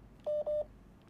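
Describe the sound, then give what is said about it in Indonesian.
A phone rings with an incoming call, two short, even electronic beeps at the same steady pitch in quick succession, clear against faint background noise, then quiet. “Siapa nih nelpon nih? Mak gua nelpon, bentar ya”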